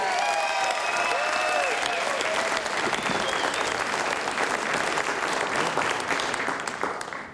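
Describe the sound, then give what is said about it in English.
Audience applause for a performer at a live music stage show: dense, continuous clapping holds strong throughout and tapers slightly at the very end. “Give it up one more time for Calvin Arcena.”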